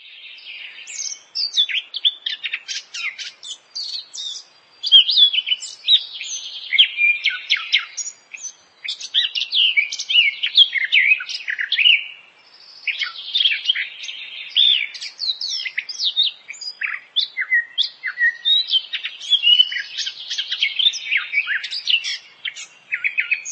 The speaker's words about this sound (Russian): Славка Черноголовка.